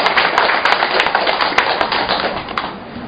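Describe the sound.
A church audience applauds to welcome a woman coming forward to give her testimony. Dense, crisp hand clapping runs steadily at first, then thins and softens toward the end.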